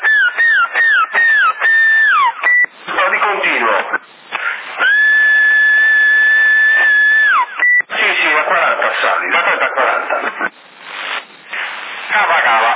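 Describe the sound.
A person whistles into a CB radio link in Sassari. Several quick falling whistles come first, then one long held note that drops at its end. Radio hiss runs throughout, and bursts of talk come between the whistles.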